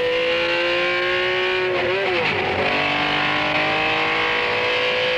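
A car drives fast along the Targa Florio road circuit, its engine holding a steady, strained whine that briefly wavers and dips in pitch mid-run before settling into a sustained roar again.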